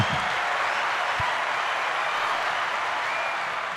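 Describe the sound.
Canned studio audience applause effect, a dense, continuous wash of clapping that stays loud and even, easing only slightly toward the end.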